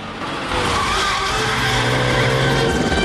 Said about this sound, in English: they get into the front seats and Joe speeds away.